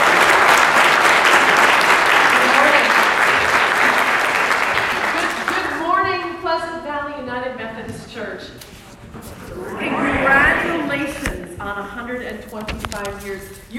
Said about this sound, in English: Please welcome up with a big hand.